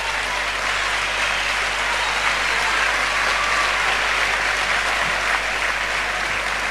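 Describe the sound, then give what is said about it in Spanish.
Applause from an audience at an Argentine political campaign event: dense, steady clapping that holds at an even, fairly loud level throughout, with no voices standing out. “quiero un aplauso para ella.”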